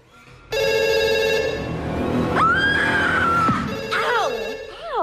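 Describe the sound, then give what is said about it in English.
A telephone ringing in a house, its bright, buzzing electronic trill loud and sustained, joined by a sliding tone in the middle and a few warbling sweeps near the end. “looks round in horror at the ringing phone”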